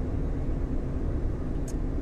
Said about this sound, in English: I'm driving my car and talking at the same time.